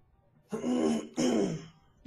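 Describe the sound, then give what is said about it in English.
A person clears their throat with two loud, gravelly rasping pushes of roughly half a second each, separated by a short gap, and a third one begins right at the end. “The clearing of the throat.”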